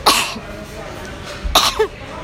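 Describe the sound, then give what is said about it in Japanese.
A person sneezes twice: two sharp, breathy, full-bodied bursts about one and a half seconds apart, each ending quickly. Faint background noise fills the quiet stretch between them. “くしゃみが出ました。”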